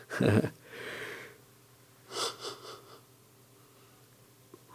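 A person yawning: a loud, breathy intake and drawn-out exhale at the start, then a quieter stretch and a few shorter breathy pulses.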